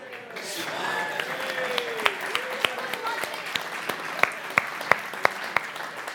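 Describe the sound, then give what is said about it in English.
Scattered hand clapping from a small group of people applauding participants after a gate-opening challenge; many sharp individual claps stand out over a background of voices and talk. “We are clapping you”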